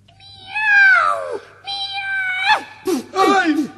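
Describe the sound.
A voice imitating a cat meowing: two long, drawn-out meows that fall in pitch, followed by three short, sharp cries.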